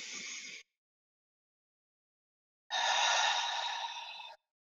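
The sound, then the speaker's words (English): Deep breathing during a slow relaxation exercise: a short breath, a pause of silence, then a longer, fuller breath that tapers off. “Just slow everything down. In really deeply. Three deep breaths. Second one.”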